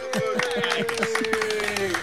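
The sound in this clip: A small group claps for a child's near-record effort. The quick claps come in a fairly regular rhythm, with voices mixed in.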